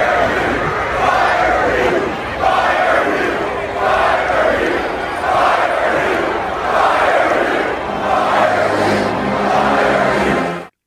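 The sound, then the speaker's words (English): A large Auburn football crowd chants to fire head coach Hugh Freeze, the same short phrase roared again and again in a steady rhythm, loud and continuous until it cuts off at the end. “Fire what? Fire Hugh. As in Hugh Freeze, their head coach. Oh, wow. They're trying to get him up out of there.”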